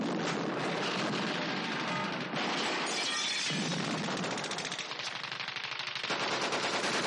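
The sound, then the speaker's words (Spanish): Loud, relentless gunfire from soldiers and a Sherman tank shooting at German troops and tanks in a World War II battle: rapid machine-gun bursts packed with crashing, shattering impacts, continuous for the whole stretch. “De pronto todos comienzan a disparar, haciendo caer a decenas de soldados alemanes. El Sherman dispara a los tanques.”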